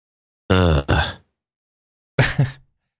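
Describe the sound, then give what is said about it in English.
A person groans twice, two short voiced bursts separated by a pause, the first more tonal and the second rougher and breathier, with silence around them. “All right, well, you don't have to like groan at me like it's you know.”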